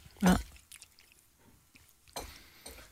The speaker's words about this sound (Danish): Jeg behøver ikke at spise det hele. Nej. Der er mange pølser i mig.